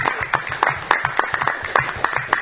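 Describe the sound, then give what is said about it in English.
Applause from the audience at a town meeting: a small group clapping in uneven, fairly steady bursts at moderate volume, with no voices over it. “How about a round of applause and appreciation?”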